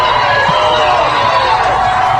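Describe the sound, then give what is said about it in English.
Loud crowd noise as former president Donald Trump arrives at a bodega, a dense, unbroken wash of cheering voices and clapping that holds steady throughout. “What a round of applause for the former president.”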